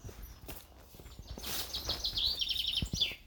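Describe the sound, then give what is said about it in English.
Birds sing outdoors among sycamore trees and green undergrowth in dappled sunshine, with faint, quick, high chirps and trills that grow busier through the second half. “Birds are really singing for me now, they're loving it.”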